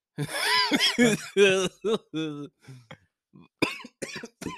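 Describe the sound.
Coughing and throat clearing from a dry throat: several harsh, voiced bursts in an uneven rhythm, a short pause, then a few final coughs.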